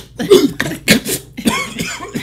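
Coughing after a big pull on a vape: a few harsh, throaty coughs in quick succession, loud and raspy, with short gasps between them and no talking.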